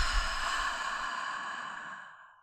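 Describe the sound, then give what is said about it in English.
One long, deep exhale, breathy and steady, slowly fades away to silence over about two and a half seconds, with no talking. “So taking another deep breath in with me and out.”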